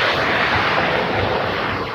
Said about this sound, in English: Plane heading off this morning. Sun glinting off the wings